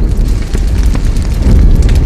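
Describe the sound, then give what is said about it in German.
A fire explosion effect accompanies a house bursting into flames in a drama: a loud, continuous roaring rumble with crackling bursts throughout. “Das ganze Haus steht in Flammen.”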